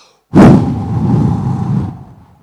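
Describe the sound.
A voice imitates blowing onto a fire: one sudden, breathy rush of air that starts hard and holds for about two seconds before trailing off.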